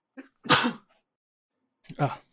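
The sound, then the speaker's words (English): A person sneezes: a sharp, breathy burst after a small intake of breath, followed about a second and a half later by another short vocal burst. “Oh, sorry, I gotta sneeze.”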